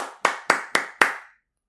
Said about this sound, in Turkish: Onlar için bir alkış. Gerçekten ben alkışlıyorum onları.